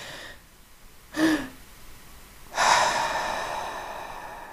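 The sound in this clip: A short, sharp sniff through the nose is followed by a longer, deep inhalation filling the lungs, both faint and breathy with nothing else around them.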